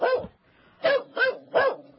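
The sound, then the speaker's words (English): An 8.5-month-old golden retriever puppy barking: four short, sharp barks, one on its own and then three in quick succession, fairly loud with no voices. “Mahalo, which is my golden retriever, is now 8.5 months old”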